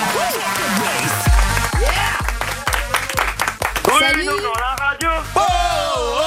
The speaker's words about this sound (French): Ouvrier viticole, applaudissements pour Sébastien.